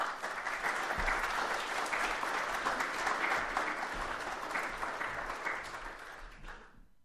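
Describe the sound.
A church audience applauds to welcome a guest pastor with sustained, even clapping that holds steady for several seconds and then fades out at the end.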